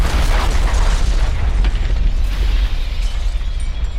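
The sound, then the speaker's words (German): Explosions and blasts from a science-fiction film, where a mechanical alien craft releases swarms of missiles and green laser flashes that reduce everything to rubble. A dense, loud, continuous rumble with heavy low booms and crackling bursts throughout. “Aus ihrem mechanischen Leib strömen Schwärme von Flugkörpern. Und grüne Laserblitze, die alles in Schutt und Asche schießen.”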